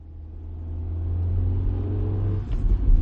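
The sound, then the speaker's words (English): Car engine droning low and steady as the car drives through the Lincoln Tunnel onto the Jersey Turnpike at dusk, growing gradually louder, with a few heavier rumbling bumps near the end. “At dusk, I head through the Lincoln Tunnel to the Jersey Turnpike, past the big white oil storage tanks and the rusted globes of natural gas. I'm riding with Jill Morley”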